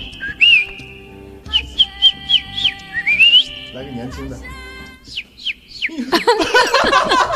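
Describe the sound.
A person imitates a young bird by mouth, producing a series of short, high whistled chirps and trills, some with quick pitch slides, ending in a busier, denser flurry of sound.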